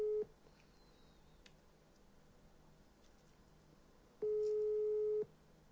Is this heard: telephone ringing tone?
yes